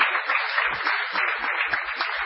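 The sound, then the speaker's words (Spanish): An audience in a salon hosting a live radio show applauds the technical crew with steady, dense clapping that stays even in loudness throughout. A few soft low thumps occur within the applause. “Yo les pido ya un aplauso para ellos, porque adaptar una radio a un salón.”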